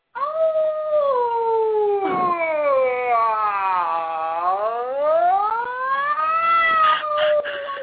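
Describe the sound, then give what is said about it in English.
A person's voice imitates a wolf howl in one long, loud, sustained call. The pitch glides steadily downward, then climbs back up toward the end, with no other sounds around it. “So I always do like a wolf. Like a wolf sound, because it's really high and then goes really low.”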